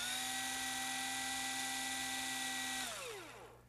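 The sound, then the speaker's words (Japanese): Electric screwdriver motor spinning with a steady, high, buzzing whine that holds for several seconds, then winds down with its pitch sliding lower as the motor stops. “スタートボタンを押している間だけ回転いたしますので安全です。まあ何しろドライバー”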